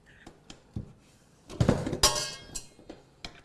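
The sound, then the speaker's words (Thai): Metallic clicks and clatter as a beater is fitted onto an electric mixer: a few light taps, then a louder burst of rattling and clinking in the middle, and more scattered clicks at the end. “เดี๋ยวเราจะมาใส่เครื่องตีของเราค่ะเวลาใส่เครื่องตีนะ”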